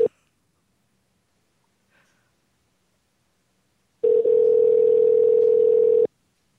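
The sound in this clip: Telephone dial tone: one steady, unbroken hum lasting about two seconds and sounding alone after a short click and a near-silent pause.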